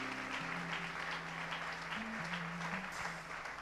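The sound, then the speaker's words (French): Church audience applauding to acclaim God during a French-language worship service. Quiet, steady clapping runs throughout over sustained keyboard notes that step between pitches. “Est-ce qu'on peut acclamer le Seigneur notre Dieu?”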